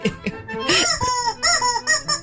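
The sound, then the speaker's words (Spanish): A small World Cup toy horn gives squeaky, chirping peeps that sound like a little bird or chick, a quick series of arched, high-pitched calls heard loud and on their own. “Parece un animalito, man, una corneta. Es la corneta del Mundial.”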